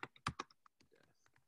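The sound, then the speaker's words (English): Typing on a computer keyboard while noting down a list of opposite words: a few quick, irregular clicks, loudest at the start and thinning out, fairly quiet overall. “So I'm typing next to them, the opposites, right?”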